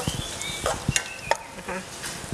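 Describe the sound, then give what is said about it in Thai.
Minced pork stir-frying in a pan with a little water added, giving a soft, continuous sizzle and crackle. A few light scraping stir strokes sit on top, all fairly faint. “อาจจะเติมน้ำในการรวนได้นะคะนี่ใส่น้ำไปเล็กน้อยนะคะหมูจะได้ไม่แห้ง”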